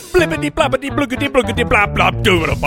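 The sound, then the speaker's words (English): A single voice imitates a cartoon man tumbling down a hill with a rapid, bouncy string of nonsense syllables, delivered in one quick rhythmic run lasting under three seconds. “That's the sound of a man falling down a hill.”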